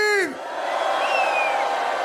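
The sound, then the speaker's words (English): Crowd screaming and cheering at a live DJ show: one falling whoop opens, then a loud, continuous roar of many voices carries through to the end. “Put your hands up. Hands in the air, everybody. Scream. Everybody scream.”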